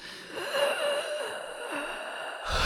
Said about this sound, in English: Now inhale.